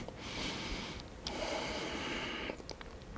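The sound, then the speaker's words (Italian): Breathing in during a leg exercise workout: two long, airy inhalations, each a steady rush of breath, with a brief pause between them. “Inspiro.”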